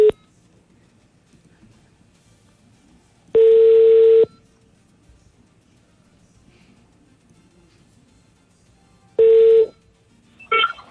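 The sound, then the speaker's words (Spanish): Telephone dialing tones as a call is placed to a radio listener: a few clean, steady electronic beeps, each held for a moment and separated by long quiet gaps, with a short final tone at the end. “Bueno, marquemos a este oyente.”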